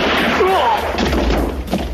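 A few muffled gunshot blasts thud over a constant noisy background.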